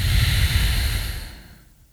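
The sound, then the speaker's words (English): One deep breath during a guided breathing exercise, a soft, airy rush of air that is strongest at the start and fades out over about two seconds. “Gonna go again, inhale, and trace in to the center.”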